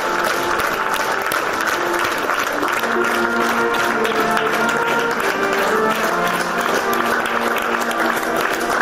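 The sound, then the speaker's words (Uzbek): Steady applause from mourners as a soldier's coffin is carried out of a theatre at the end of a farewell ceremony. The clapping is dense and continuous from start to finish. “Marosim tugab, tobut olib ketilayotganda uni oxirgi marta olqishlashdi.”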